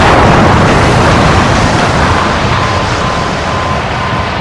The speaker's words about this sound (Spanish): La explosión ocurrida en la sala de máquinas a las 2 horas nos cogió completamente de sorpresa.